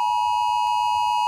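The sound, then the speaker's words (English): A loud, steady electronic alarm tone sounds from a mobile phone emergency alert during a test of Australia's new national warning system. It holds one unbroken bright pitch with ringing overtones, broken only by a brief click midway. “at 2 o'clock this afternoon, every mobile phone in Australia will blast a 10-second alarm.”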